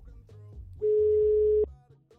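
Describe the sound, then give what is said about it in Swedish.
A single steady telephone ringing tone sounds for about a second while a call is placed, with faint low background sounds before and after it. “ska vi passa på att ringa upp Laila och se vad hon säger om Ultra?”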